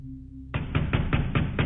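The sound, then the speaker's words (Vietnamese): Heavy banging knocks on a door come as a rapid, evenly spaced series of loud thuds. They start abruptly after a short stretch of low, quiet hum. “ở bên ngoài có tiếng đập cửa sầm sầm sầm sầm”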